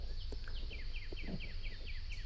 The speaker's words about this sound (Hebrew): נשים לנו קצת ציוצים של ציפורים